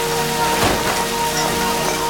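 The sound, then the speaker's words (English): Sudden downpour of rain at a sidewalk cafe, a dense, steady hiss of drops that swells briefly louder partway through, with no voices. “A sudden downpour forces the patrons to retreat from the sidewalk cafe.”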